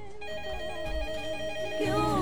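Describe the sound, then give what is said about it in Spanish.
A telephone rings with an incoming call, playing a melodic, tonal ringtone that repeats steadily and grows louder near the end, with no talking. “Ah, me están llamando, a ver.”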